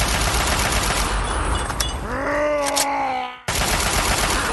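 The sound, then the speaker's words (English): Video game gunfire from a Super Mutant, a dense, unbroken rattle of shots with a low groaning growl rising through the middle before the sound cuts off abruptly and the firing resumes. “The Super Mutant shot at me and something exploded.”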